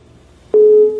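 A telephone busy signal sounds after a call is cut off: a single loud, steady mid-pitched beep starts abruptly midway and eases slightly toward the end.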